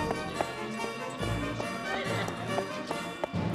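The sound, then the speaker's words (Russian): Horse hooves clip-clop through a crowd: a long run of regular, sharp hoof strikes at a walking pace, heard over a continuous murmur of many voices. “Люди расступаются перед лошадью.”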